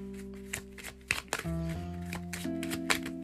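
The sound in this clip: Playing cards are shuffled during a card game in a few crisp, quick riffling bursts, faint, over a steady tonal hum that runs underneath.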